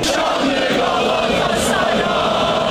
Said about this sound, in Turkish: Sarı kırmızı taraftarlar şampiyonluğu kordon boyunda toplayarak kutladılar.